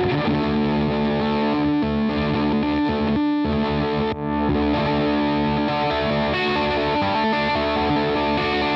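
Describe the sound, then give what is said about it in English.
Electric guitar played through a Black Strap Electric Green Leaf effects pedal, with thick, sustained distorted chords and a swirling effect, broken by a few very short gaps. “it's a black strap electric green leaf pedal, and it's really cool because it you could yeah let's hear some”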